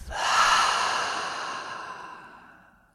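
A single deep breath during a guided relaxation exercise, drawn in through the nose and let out through the mouth: one long, soft, airy breath that swells quickly and then slowly fades over about three seconds.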